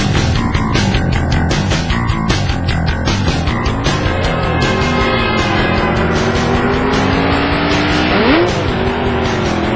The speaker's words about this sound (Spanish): el Waffles, así con todo y alfileres, monta su motocicleta prestada y se lanza a toda velocidad hacia el lugar de su boda